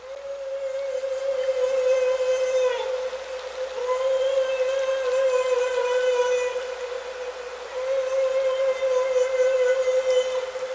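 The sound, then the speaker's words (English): A whale's fish-scaring call: loud, sustained tonal moans with a rich stack of harmonics, given as three long steady sections separated by brief dips. “What is this whale communicating? That's the fish scaring sound. That's scary. Yeah, that's the one that scares the fish.”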